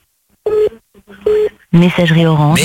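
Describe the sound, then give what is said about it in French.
A phone number being dialed to call someone back: two short, clear beeps with a gap between them, followed by a voice. “Bon, on rappelle. Rappelle-la. Ouais, on rappelle. Allez, c'est parti.”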